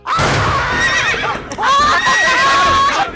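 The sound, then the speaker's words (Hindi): A horse neighs loudly in two long, wavering whinnies, one after the other, each high and shaky in pitch, from a runaway horse. “अरे घोड़ा रोको!”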